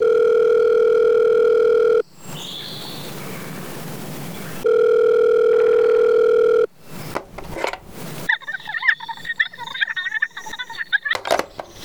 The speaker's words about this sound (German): Der andere Lehrer kommt und ruft sofort die Polizei.